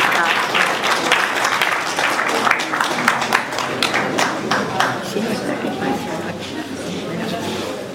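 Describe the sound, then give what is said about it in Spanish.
An audience at an awards ceremony applauds a television producer and journalist being honoured. The clapping is thick, continuous and loud at first, then eases off slightly over eight seconds. “Fuerte el aplauso para Fabián Herrera.”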